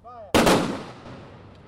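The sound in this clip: A rifle volley fires after a firing command. A brief shouted voice is followed by one sudden, loud, sharp crack that booms and then decays in a long fading tail.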